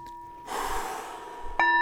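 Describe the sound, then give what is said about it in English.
A deep breath is drawn as a soft, breathy rush lasting about a second, over a steady hum of sustained background tones. “please allow yourself to take a couple of deep breaths”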